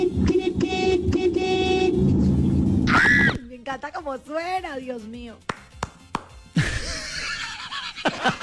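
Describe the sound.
Car horn honking: a loud, buzzy, harmonic blast that pulses rapidly for about three seconds, then gives way to people talking.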